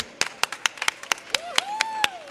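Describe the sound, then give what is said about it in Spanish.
Sparse, scattered handclaps from an audience greeting the band Lurte at an outdoor concert in the Plaza de la Magdalena, sharp, separate claps coming irregularly rather than merging into full applause. “Bueno, un aplauso para Lurte.”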